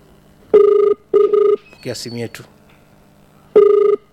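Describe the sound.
A telephone rings with an incoming call on a radio station's phone-in line. It is a loud electronic ring of steady mid-pitched tone bursts that repeats after a pause, with a brief stretch of speech between rings.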